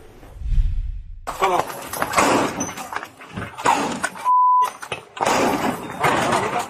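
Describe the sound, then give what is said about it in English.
Police forcing open a trailer with bolt cutters, a low thump followed by harsh metallic clanks, rattles and scraping bursts, broken by a short steady beep tone, with voices mixed in. “Body cam footage shows the moment that Atlanta police officers used bolt cutters to open a trailer, and they rescued two young girls who were inside.”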